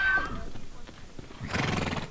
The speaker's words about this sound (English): The wild horses rounded up today are faring better than that, but not by much.